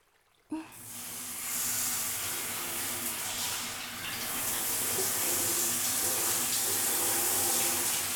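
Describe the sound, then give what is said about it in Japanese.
Shower water runs onto hair to wet it before shampooing. It switches on abruptly after a brief quiet moment and then continues as a steady, full hiss of spray. “シャワーで髪を濡らしていきますね。”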